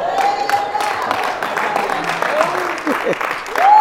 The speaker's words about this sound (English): Now look, I'll tell you what, she deserves applause for that.